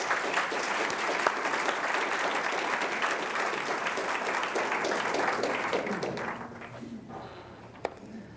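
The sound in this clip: An audience applauds to welcome a speaker to the lectern at a university lecture, with steady, dense clapping that tapers away toward the end.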